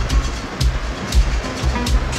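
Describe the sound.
An electric commuter train riding along the rails with a steady clickety-clack, low thumping wheel beats repeating at an even rhythm over a continuous rumble.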